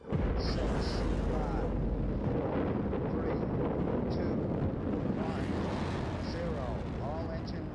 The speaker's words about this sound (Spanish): Acaba de despegar Saturno V, el cohete de la misión Apolo 11.